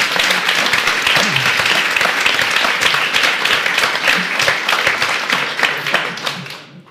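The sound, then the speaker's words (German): Audience applause at a live event held in a sports shop, given as an interim round of thanks to two exhibitors: dense, steady clapping that holds at an even level for several seconds before fading out at the very end. “In der Zwischenzeit machen wir einmal schon mal für euch beide einen Zwischenapplaus.”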